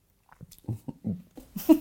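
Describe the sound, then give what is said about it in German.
A few short, wet slurping bursts from someone sipping a 2014 Ribolla Gialla white wine, followed by a brief murmured voice at the end. “Ich nehme mal einen Schluck.”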